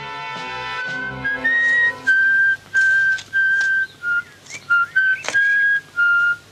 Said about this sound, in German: Um die Kinder anzulocken, pfeift er ein Lied.